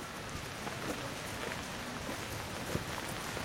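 Rain falling outdoors: a continuous, even hiss with faint scattered drop ticks throughout and no voices.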